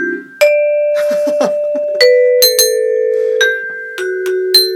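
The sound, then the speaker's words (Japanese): The level-up jingle from the Dragon Quest video game, played by hand on an instrument: a series of bright, sustained notes with a quick run of short notes early on, clear and alone without voices. “レベルが上がった、レベルが上がった、レベルが上がった。”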